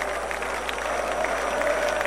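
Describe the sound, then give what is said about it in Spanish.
Scottish fans clap in a Boston stadium during a football match. Their applause is a continuous wash of crowd noise and clapping at a moderate, even level, with a voice faintly over it. “Los aplausos de los escoceses, ¿no? Esta fiesta, esta tradición por parte de Escocia, más allá del partido, ahí está alentando la afición en la cancha de Boston.”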